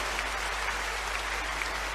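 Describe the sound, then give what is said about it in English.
A church audience applauds during a worship service, producing a dense, steady wash of clapping that holds at an even level throughout without breaks. “Is somebody clapping some more for the Lord?”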